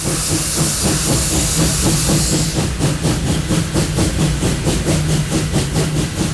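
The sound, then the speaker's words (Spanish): A steam locomotive chuffs in a loud, fast, even rhythm, each puff carrying a burst of hissing steam over a heavy, rumbling low end. “Hacia Madrid una noche va el tren por el Guadarrama.”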